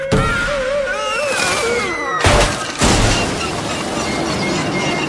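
A flying Easter sled that is spinning out of control crashes down. Two heavy booming impacts hit a moment apart, after a stretch of tonal, voiced sound.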